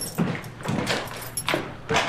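A door being unlocked and opened, heard as a few faint clicks, rattles and scraping knocks spread through the short stretch, with no voices.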